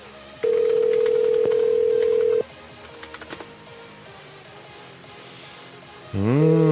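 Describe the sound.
Ringing tone on an outgoing telephone call: one steady electronic tone lasting about two seconds, then quiet with a few faint clicks, then a wavering tone begins at the end.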